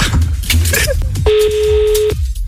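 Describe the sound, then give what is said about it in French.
A telephone tone sounds while a hotel's number is dialed for a call, one steady electronic tone holding for just under a second after a few brief scraping noises. “vas-y, compose le numéro, on appelle l'hôtel.”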